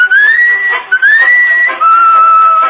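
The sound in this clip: A man whistles a melody in long, steady held notes, loud and clear, with two short breaks partway through and no voices.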